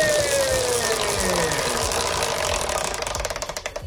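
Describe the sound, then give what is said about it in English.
A prize wheel given a big spin makes a whirring, rattling run that ends in a quick series of ratcheting clicks, slowing as the wheel winds down. “Do you want me to give the wheel a spin? Yeah. A big spin or a little spin? Big, please. Here we go.”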